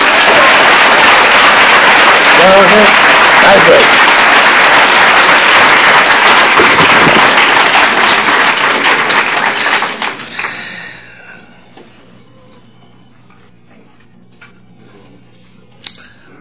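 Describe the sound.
An audience applauds to welcome a speaker, with dense, steady clapping held for about ten seconds before it quickly dies away to near silence.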